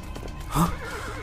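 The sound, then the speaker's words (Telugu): A horse whinnies once midway, a short loud neigh with a wavering pitch, in a horror drama scene of horses riding through a quiet night, over a low steady background. “ఉన్నట్టుండి ఒక్కసారిగా గుర్రాల సవారీ sound వినపడగానే రూప ఉలిక్కి పడి లేచింది”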